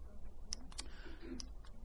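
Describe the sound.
A few soft, sharp clicks from a presentation remote clicker being pressed. The ticks are faint and irregularly spaced over a low, steady background hum.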